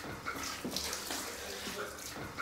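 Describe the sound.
Running water from a tap wetting a snake to loosen its shedding skin. It is a steady, soft, continuous splashing and trickling with no breaks.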